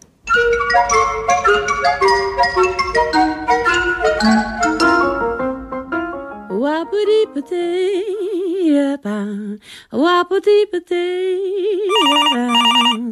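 Telephone ringing in a radio comedy sketch: a loud run of bright musical ringtone notes gives way to warbling, wavering electronic tones that stop and restart. It is loud and carries on alone, with no talk.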